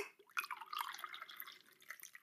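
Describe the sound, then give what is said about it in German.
Tea is poured into a cup, making a faint, bubbling trickle of liquid with small splashy drips throughout. “Ich gieße mir jetzt erstmal einen Tee ein”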